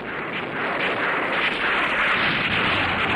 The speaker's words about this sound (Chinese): 突然响起了一阵枪声，不好，林子已被敌人包围。